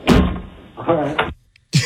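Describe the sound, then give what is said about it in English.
A door is slammed shut in an unwanted visitor's face, with a heavy, sharp thud near the start and another hard burst at the end. A person speaks briefly between them. “Oh, and it felt good to slam the door in his face.”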